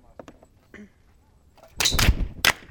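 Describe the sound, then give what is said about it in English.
Gunfire from club members firing practice rounds at targets on a shooting line at dusk: a few sharp, loud cracks arrive close together near the end, after a stretch of faint low sound. “They'd set up a shooting line and targets, and club members took turns firing off practice rounds.”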